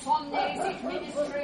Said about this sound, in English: I think those dogs know we're in here.